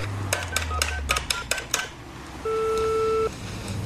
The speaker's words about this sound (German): Wählen Sie Ihre Nummer. Ich rufe Sie an.